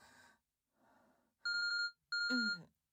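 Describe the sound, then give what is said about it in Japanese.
A phone ringtone for an incoming call: two loud, bright electronic tone bursts with steady harmonics, preceded by a couple of faint, soft breathy sounds. “お兄さんから着信みたい。”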